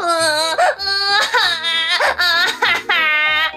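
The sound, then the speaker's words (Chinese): A voice imitates loud, wailing crying and sobbing for a story character, a piece of fat called Rourou. Several strained, pitch-wavering sobs come in bursts with short catches of breath between them, and no words are spoken. “肉肉再也忍不住，伤心大哭了起来。”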